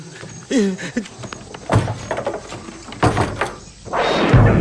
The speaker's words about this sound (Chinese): 先把门关上了。